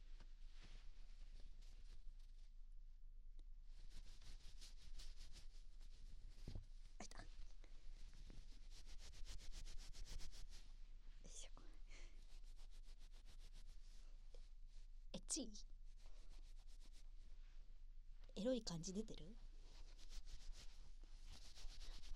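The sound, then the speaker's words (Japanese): Soft rustling of silk fabric, made as a sound effect. Quiet, breathy brushing and rubbing comes in repeated bursts, and a voice speaks one short line partway through. “じゃあまず絹ずれ音いくね。”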